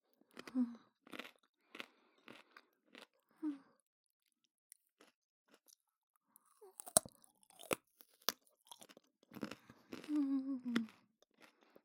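Raw carrot being chewed: many crisp, crunchy bites in irregular bursts separated by short pauses, fairly faint and close.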